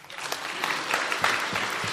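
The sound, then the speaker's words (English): An audience claps for a girl after she answers a question, a brief burst of steady applause. “So clap for her.”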